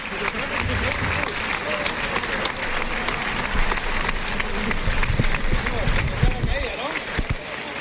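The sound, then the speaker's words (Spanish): A bullring crowd gives a matador an ovation at a bullfight. Loud, sustained applause rolls on for several seconds, with a voice faintly audible over the clapping. “el público le da una ovación a Manzanares”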